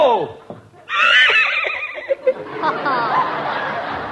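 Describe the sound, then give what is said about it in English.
A horse neighs in one loud, shrill, quavering whinny, followed by a couple of short knocks and then voices talking over a busy background. “Here comes Bullethead Heaston. He'll gallop through the window. He's riding for trouble.”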